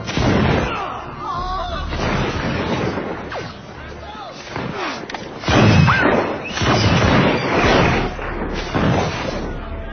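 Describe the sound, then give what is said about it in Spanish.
A volley of gunshots as guards fire on advancing Madrid townspeople during the Esquilache riot: many overlapping bangs and booms in a dense, loud, continuous barrage, with whistling tones threaded through it. “Los guardias están decididos a hacer fuego. Los madrileños avanzando. Finalmente, el oficial da la orden fatídica. ¡Fuego!”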